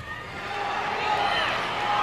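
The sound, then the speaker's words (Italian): The audience at the 1987 Grammy Awards applauds, a dense, steady roar of clapping and crowd noise that swells slightly and holds at full loudness. “Sentito che applauso? Ancor prima di pronunciare il suo nome, il pubblico dei Grammy Award”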